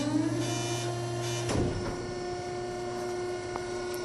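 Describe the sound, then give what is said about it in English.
An Amazon packing machine running, heard as a faint, steady mechanical hum with sustained tonal drones and a single clunk partway through. “As Bezos sobbed, the Iceman activated the machine and then forced Bezos' legs inside, mangling them into mush”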